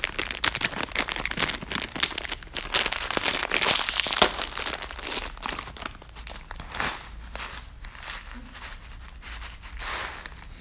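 Plastic crinkling as a bag of Baby Star Ramen snack is handled and opened: a long run of irregular crackles and crunches, louder in the first half and then thinning out, with no talk over it.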